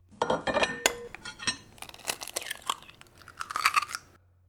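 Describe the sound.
Dishes and cutlery clinking while breakfast is made: many scattered clinks, clatters and crunchy knocks in an uneven rhythm, fairly faint and with no talking.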